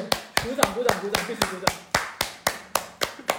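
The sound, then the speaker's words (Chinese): Hand clapping in a steady, evenly paced run of sharp, crisp claps that keeps the same tempo throughout, with faint talk underneath. “鼓掌。”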